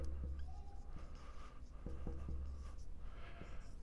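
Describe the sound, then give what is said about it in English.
Writing on a board gives faint, dry scratches and a few short taps over a low steady hum, all quiet throughout. “This will be the last strange phrase I'll write on the board.”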